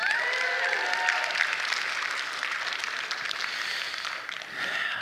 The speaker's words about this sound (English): Can we give it up for our worship team this morning?